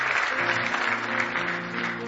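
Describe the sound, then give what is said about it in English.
A church audience claps their hands in praise during a worship service, a dense, steady round of applause that holds at an even level throughout. “Give Him one more hand clap of praise if you love Him.”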